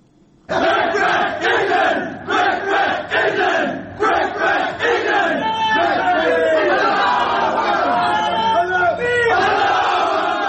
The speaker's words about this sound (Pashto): دا د افغانستان د کرکټ د ملي لوبډلې غړي دي چې په خپله خونه کې د کرکټ د بری له امله د خوشحالۍ نارې وهي.